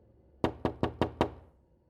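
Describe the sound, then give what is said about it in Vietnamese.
Five sharp knocks banging on a door in a quick, even rhythm, quiet and alone with no voices. “Tiếng đập cửa tiếp tục vang lên.”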